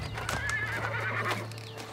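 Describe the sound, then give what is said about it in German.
Horses neigh while pulling a royal horse-drawn carriage: a high whinny rises over soft hoof clops and a steady low rumble, heard alone. “Die königliche Kutsche. Sie ist ja seit Jahren nicht mehr vorbeigekommen.”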